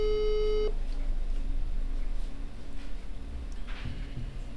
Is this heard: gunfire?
no